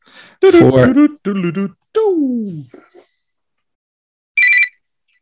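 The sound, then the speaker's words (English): A phone timer alarm sounds as one short, bright electronic beep after a stretch of people talking, with silence around it. “you hear that? Is that someone's phone? Well, but yeah, it's my phone. I just need something that you can hear, so you know that I'm not cheating.”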